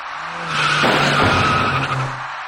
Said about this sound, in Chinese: 一辆银色小客跟一位电动自行车的骑车人发生相撞。